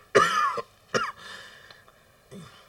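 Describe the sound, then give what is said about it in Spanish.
Harsh, hoarse coughing comes in a few rough bursts separated by pauses, the first burst the loudest and the last one quieter, with no talking. “Esta maldita tos.”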